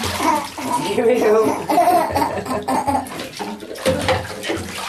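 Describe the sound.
Bath water sloshes and splashes steadily as a young child with Angelman syndrome is bathed at home, with the child's playful vocalizing and laughter mixed with adult voices over the continuous water noise.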